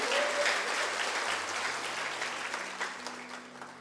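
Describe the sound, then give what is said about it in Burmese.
A church audience clapping after a prayer during a Sunday sermon: dense, steady applause from many hands, fairly faint and slowly easing off, no speech over it. “လက်ခုပ်တီးလက်ပြားကိုချီးမွမ်းကြရအောင်”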